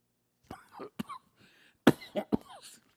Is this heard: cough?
yes